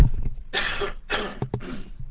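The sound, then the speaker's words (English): A man coughs a few times after taking off his headset: short, harsh bursts, the first longer and the rest clipped and close together, with no talking between them. “take the headset off and have a little cough”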